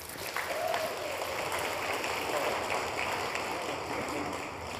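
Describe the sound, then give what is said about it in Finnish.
Audience applause for a house band at a media event: dense, even clapping that holds steady and loud for the full five seconds with no break. “Vielä kerran aplodit heille.”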